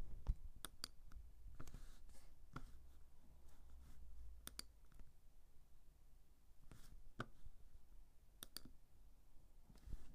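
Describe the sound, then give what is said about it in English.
Faint, sharp clicks of a computer mouse, scattered irregularly over a soft steady hiss, some in quick pairs and others spaced a second or more apart, with no talking. “I'm going to go ahead and click over to my website.”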